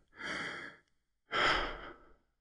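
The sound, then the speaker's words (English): A deep breath, drawn in as a long, soft airy rush, then after a short pause let out in a second, slightly louder and longer breath, alone with no talking. “I'm going to stop and take a breath.”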